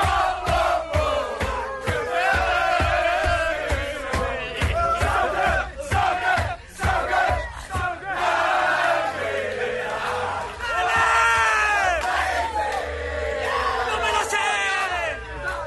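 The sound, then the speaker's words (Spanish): Tottenham players shout and chant together in their dressing room in Amsterdam. The group voices stay loud and dense throughout, with steady rhythmic percussive beats underneath. “Por cierto, último sonido, vestuario del Tottenham en Ámsterdam.”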